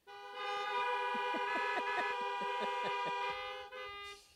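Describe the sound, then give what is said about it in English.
Car horns honk together from vehicles parked at a drive-in gathering, answering a call from the front. Sustained horn tones overlap with many quick, rhythmic toots for about three seconds, then cut off, with a brief blare after. “So if you can hear my voice, honk your horn right now.”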